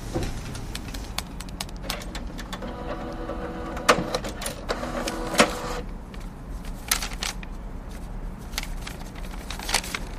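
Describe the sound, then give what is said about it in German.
A printer printing out a document: a steady mechanical whir broken by many sharp clicks and clacks, with a droning motor tone that sounds for a few seconds in the middle before the clattering resumes. “Eventuell hilft uns das weiter. Ich drucke es mal aus.”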